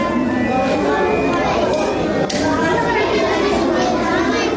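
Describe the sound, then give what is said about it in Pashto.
Many children chattering at once in a newly built library in Nangarhar, a dense, continuous babble of young voices with no pauses. “دا د هغه ماشومان غږ دی چې ننګرهار کې د جاپان هیواد په مالی مرسته نوی جوړ شوی کتابتون کې راټول شوی دی او د خپل خوخي وړ کتابونه لولي.”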